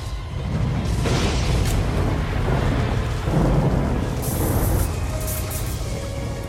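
A lightning-strike thunder effect for a tabletop role-play game, a heavy rolling boom that rumbles loudly for several seconds over a constant hiss of rain.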